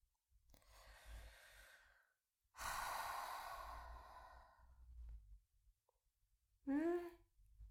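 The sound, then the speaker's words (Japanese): Slow breathing: a soft, drawn-out inhalation, a pause, then a longer, louder airy exhalation tapering away, followed by a brief voiced sound at the end. “スーッと吸ってはーっと吐く。やってごらん。”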